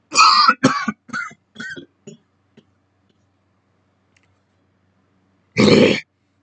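Throat clearing and coughing from someone with something stuck in the throat: a run of about five gruff bursts that weaken and fade, a few seconds of silence, then one loud final cough.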